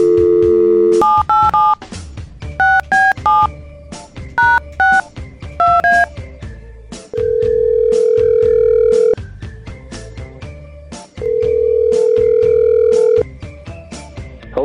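Telephone dial tone followed by a rapid string of keypad beeps as a number is punched in for a call-in radio segment, then two long, steady ringing tones separated by a pause.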